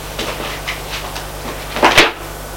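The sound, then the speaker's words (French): A desk drawer is pulled open: a few faint scrapes and knocks, then a louder sliding rattle near the end before it goes quiet. “Il ouvre un tiroir, rien. Le tiroir d'à côté”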